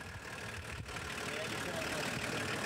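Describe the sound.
A camper vehicle's engine idles at a campsite while pulling into a parking gap, a steady low rumble that continues without a break, with voices over it.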